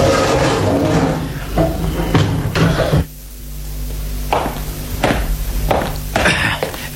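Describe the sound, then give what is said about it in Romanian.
A heavy prison cell door in the Bastille is unlocked and opened with a run of solid metallic clunks and thuds over a steady noisy background, and a sudden drop in level partway through. “Aceasta este celula regelui Bastiliei. Da, deschide, comandant.”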